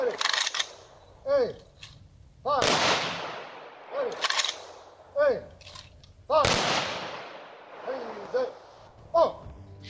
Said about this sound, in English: We honor their service. Ready. Aim. Fire.